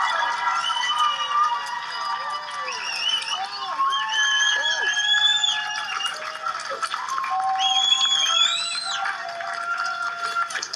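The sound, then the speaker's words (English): A studio audience cheers for a celebrity leaving the house on Celebrity Big Brother. The cheering is sustained and loud, with shrill yells and whistle-like cries all the way through. “Please make some noise for our 8th celebrity out of the house.”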